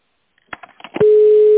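A steady, single-pitched ringing tone of an outgoing telephone call sounds loud and unbroken to the end, after a few brief fainter bursts.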